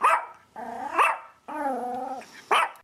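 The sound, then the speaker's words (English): A dog vocalizing: a few short, sharp barks alternate with two longer, steady, drawn-out tonal calls, each holding an even pitch before cutting off. No talk. “does your dog sound like this?”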